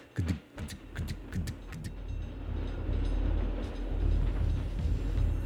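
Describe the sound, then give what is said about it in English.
A train passes with a rhythmic clickety-clack of wheels at first. The clatter then merges into a steady, loud low rumble that slowly builds and holds to the end. “We hear a train coming by”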